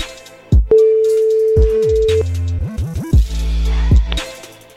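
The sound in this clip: A telephone line rings on an outgoing call. A long steady electronic tone is followed by choppy, sliding electronic tones, loud throughout with no talk.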